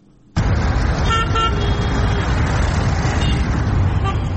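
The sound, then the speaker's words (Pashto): Street traffic of cars and motorcycles in Kandahar city. A loud, steady roar of engines and road noise sets in abruptly and holds throughout, with a few short horn toots near the start. “د کندهار ښار پر واټونو ولاړ پولیس د موټرو او موټر سایکلانو تلاشي کوي.”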